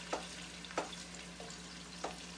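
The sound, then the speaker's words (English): Soft onions frying in a pot as a wooden spoon pushes them to the sides: a faint, steady sizzle broken by three brief scraping strokes of the spoon, with a low constant hum underneath. “I feel my onions are pretty soft. So what I'm doing now with my spoon is I'm pushing my wooden spoon, I'm pushing the onions to the sides of the pot.”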